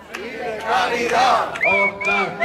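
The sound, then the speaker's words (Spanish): Protest crowd at a rally in Jaén, Spain, demanding better rail connections, loudly shouting chants in unison; the voiced phrases come in bursts that rise and fall, with a brief dip before the next chant starts. “En esta concentración han reclamado que se mantengan y mejoren las conexiones ferroviarias en Jaén, Andalucía Oriental y también Castilla-La Mancha.”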